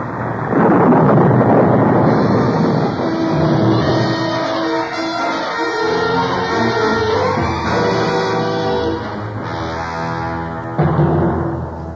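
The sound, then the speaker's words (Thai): Storm wind blows loudly against a stone-founded house as the storm dies down: a continuous, full roaring rush that persists throughout, with sustained tonal notes layered over it. “พายุจะหมดแล้ว บ้านของเราทนพายุจริงๆด้วย”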